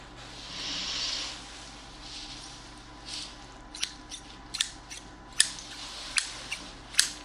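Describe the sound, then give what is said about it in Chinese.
Newly bought, unused Nepalese scissors are handled: a soft breathy rustle at first, then a series of sharp, crisp metallic snips at an uneven pace, fairly faint overall. “这把新买的剪刀，尼泊尔的，还没用过，不知道”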